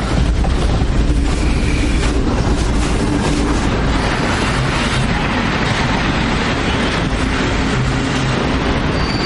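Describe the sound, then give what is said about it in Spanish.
A military train rolls in and comes to a stop beside another train, with a continuous loud rumble of rail cars, clattering wheels and a thin metallic squeal running through the steady noise. “Otro tren de militares se detiene ante el primero.”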